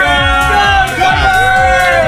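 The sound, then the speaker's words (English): A crowd of people partying in a radio studio whoop and chatter over loud music with a steady, pulsing beat, the voices blending into a lively hubbub. “Honestly, the studio's like flooded with people. Yay! Yay!”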